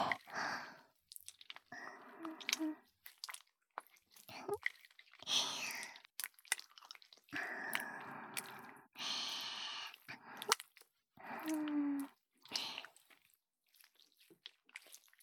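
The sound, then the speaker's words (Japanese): Wet, squishy stirring of lotion, heard as irregular bursts of sticky squelching separated by short gaps, quiet throughout. “ローションをかき混ぜる音、いいわよね。”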